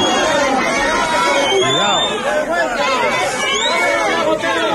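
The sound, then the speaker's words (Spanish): Crowd booing as the regional minister of Culture, Tourism and Sport, Alberto Díaz Pico, arrives: a loud, dense, continuous mass of overlapping voices that carries on throughout. “Escucha el abucheo a la llegada ayer del consejero de Cultura y Turismo y Deporte, Alberto Díaz Pico,”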